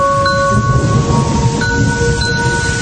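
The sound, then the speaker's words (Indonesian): Heavy rain pours over Bandung on a Thursday evening, a dense, continuous hiss and patter that stays loud and even throughout. “Hujan turun sangat deras dari jam 4 sore.”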